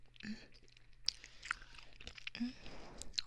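Someone chewing food while eating: soft, moist chewing with a few brief crunchy bites and small clicks, steady and fairly quiet throughout.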